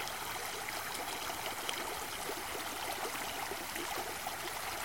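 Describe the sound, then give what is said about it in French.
Stream water flowing in the Aubrac countryside makes a faint, steady rushing wash with soft trickling and bubbling texture, continuous and even throughout. “Elles sont les roseaux. Elles sont cette eau qui coule.”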